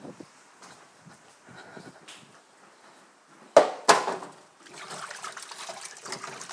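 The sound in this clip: Hands being washed under a running tap in a kitchen during cooking; two sharp clunks are followed by a steady, fairly loud rush of water that continues to the end, with faint handling noises before.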